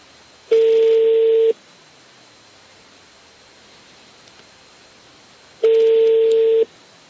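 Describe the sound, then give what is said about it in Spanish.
Telephone call tone while phoning to find Hyundai spare parts: two steady, mid-pitched electronic tones, each lasting about a second, separated by several seconds of faint hiss. “estamos llamando a otro sitio a ver si conseguimos repuestos de la Hyundai”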